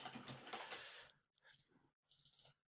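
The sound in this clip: Typing on a computer keyboard: quick, soft clicking comes in three short runs separated by brief pauses, the first run the longest and busiest.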